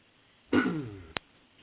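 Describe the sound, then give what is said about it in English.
Someone clears their throat once, a rough voiced rasp that sinks in pitch, followed by two short, sharp clicks; faint and otherwise quiet. “Someone clearing their throat.”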